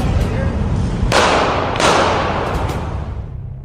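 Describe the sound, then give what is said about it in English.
Real gunshots fired at police officers: a few sharp, cracking bursts, two of them loud, stand out against a dense, noisy background with voices present. “the last sound effect you heard was real shots being fired at police officers”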